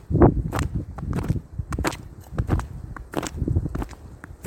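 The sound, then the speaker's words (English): Footsteps of boots fitted with crampons on a winter hike: a steady series of many sharp, gritty steps in an even walking rhythm, moderately loud, with no voices. “What you're hearing are my feet. I'm doing a winter hike. I'm wearing crampons.”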